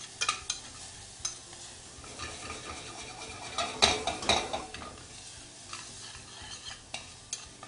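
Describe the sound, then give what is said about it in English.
Chopped jalapeno sautés with leeks in a pan: a steady, soft sizzle runs throughout, broken by many light scrapes and clinks of a utensil stirring, with a busier cluster of stirring sounds in the middle. “Next, I've got some chopped jalapeno. That's going to go in and saute with the leeks.”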